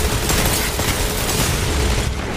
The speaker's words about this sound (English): Come on, dude, get the grenade kill, get the grenade kill.